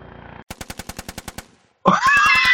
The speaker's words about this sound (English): Give me that 50 caliber machine gun. I want to fire down.